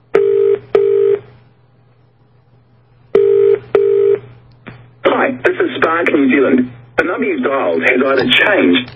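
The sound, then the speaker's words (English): Telephone keypad tones dialing an international call to New Zealand: four loud beeps in two pairs separated by a pause, followed by a voice speaking over the phone line. “But I'm just calling him directly to New Zealand, and hopefully he'll pick up here.”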